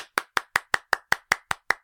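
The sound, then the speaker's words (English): Ten crisp, evenly spaced hand claps from a single pair of hands, a steady beat of about five per second, celebrating everyone passing a CPR and first aid exam. “round of applause to everybody. We all passed.”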